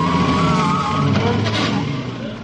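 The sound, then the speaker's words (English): A van engine strains as the van swerves and turns round, giving a loud, wavering motor whine over a rough rushing noise that eases slightly toward the end. “Jones, look out where you're going. Don't panic. Jones, you're driving straight at the men. Great Scott, the van's turning round.”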